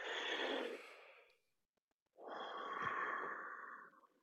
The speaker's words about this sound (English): if we breathe in through the mouth, like just take one deep breath.